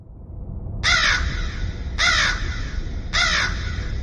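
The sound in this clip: Large crows caw while passing overhead in a tight flock: three loud, hoarse caws at roughly even intervals over a low, steady background rumble.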